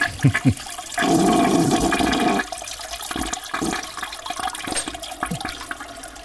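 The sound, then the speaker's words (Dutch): Toilet being flushed: a loud rushing surge of water that runs for over a second, then a long, lower gurgling and trickling as it keeps draining and refilling. “Dat is wel heel veel. Hij moet lang spoelen.”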